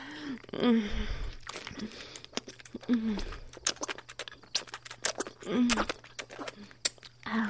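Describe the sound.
Wet sucking, slurping and clicking mouth sounds made by a voice imitating a leech drinking blood, coming in irregular bursts of sharp smacks and squelches with soft breathy pauses between them.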